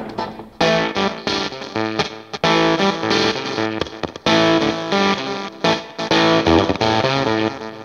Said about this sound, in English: So David Main, the guys from Macari's and Solar Sound, made me a prototype of a 65 Mark I tone bender, and it's just great.